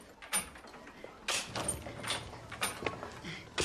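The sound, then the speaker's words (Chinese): A small wonton shop's door being opened gives a series of faint rattling clacks and scrapes in short bursts, in the manner of a sliding door. “一天，李成阳让房东打开了小鱼馄饨店的大门。”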